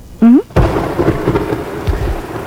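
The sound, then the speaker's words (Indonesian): Rain and thunder: after a short rising tone, a sudden burst of steady rain hiss sets in, carrying low thunder rumbles that swell and fade, with a heavier thump near the end. “Ya hujan.”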